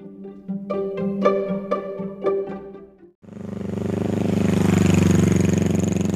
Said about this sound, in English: Hear that? It's the sound of a new Honda from Just for Fun Honda in Middlefield.